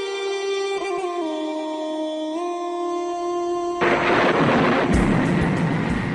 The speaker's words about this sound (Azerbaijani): Elə həmin gecə fırtına qopdu. Külək uğulduyur,